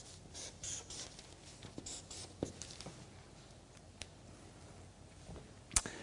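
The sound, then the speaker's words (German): Faint scratching of handwriting: a run of irregular strokes with a few sharper taps and ticks, quiet and without talking. “Gute ja, Mitarbeiter schreibe ich mal hier hin.”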